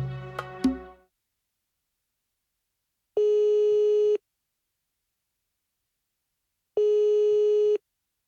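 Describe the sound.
Telephone busy signal while placing a call: two steady, mid-pitched tones of about one second each, separated by a few seconds of silence, after a brief burst of handset noise at the start.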